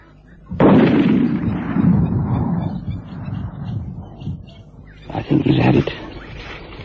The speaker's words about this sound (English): There's the first shot. Good shot on the shoulder. Very good shot.